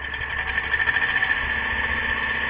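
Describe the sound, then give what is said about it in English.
A generator that runs on used cooking oil hums as a steady engine drone with a faint, even pulsing throughout. The sound is moderately loud and stays unchanged, with no voices. “Many people ask me how much it costs to run the generator. I love it when people ask me that. It costs me pennies. My generator is set up to run on used cooking oil, which I get for free.”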